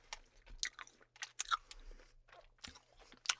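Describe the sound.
Someone chews orange Sour Patch gummy candy, with many soft, wet, squishy bites and smacks in an uneven rhythm, fairly quiet and with no talk.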